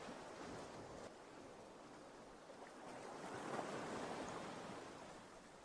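Sea waves wash in a faint, steady hiss of surf that swells gently toward the middle, with no voices.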